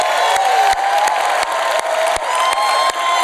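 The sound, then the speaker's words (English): A crowd applauds and cheers at a campus launch event, producing a dense, steady roar of clapping and raised voices with occasional whoops that stays loud throughout. “come on, let's give it up.”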